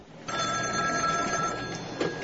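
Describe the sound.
A telephone rings in a doctor's home, a steady electronic trill with a bright tone that begins just after the start and holds evenly for about two seconds, alone without voices.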